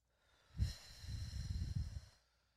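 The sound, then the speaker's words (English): A slow, deep breath is drawn in, a single soft, breathy rush lasting under two seconds. It is faint and stands alone with no talk. “We're going to take a couple of deep breaths in.”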